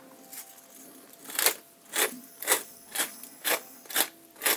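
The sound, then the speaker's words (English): Rhythmic dry rasping of a pepper grinder cracking pepper over a large pot of soup: about six evenly spaced gritty bursts, each a short crunchy twist, fairly loud against a quiet background. “And then, of course, the pepper grinder, the partner, S&P, salt and pepper.”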